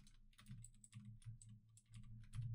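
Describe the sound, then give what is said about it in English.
Fingers type a question into ChatGPT on a computer keyboard, making many faint, irregular key clicks in quick bursts with small pauses between them. “I'm gonna type in what I'm gonna ask it. What is ChatGPT? Let's see what it comes up with.”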